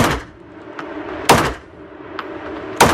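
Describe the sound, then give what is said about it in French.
Gunshots from a black powder Remington 1858 replica revolver, a Civil War-era design, ring out as three loud, sharp bangs about a second and a half apart, with fainter snapping cracks in between. “Donc ça, c'est un revolver à poudre noire. C'est un Remington 1858, donc c'est une réplique d'arme de la guerre de sécession. Moi, je suis là pour vous faire essayer, donc on va essayer ça.”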